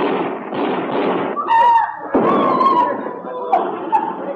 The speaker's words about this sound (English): Collins, they shot him.